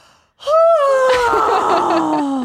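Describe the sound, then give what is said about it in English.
A man's voice imitates an exaggerated, theatrical yawn. It opens with a sharp breathy onset, swells into a loud drawn-out vocal tone, and then slides slowly downward in pitch for about two seconds. “But he will yawn with the sound effect of yawning. Like he'll go,”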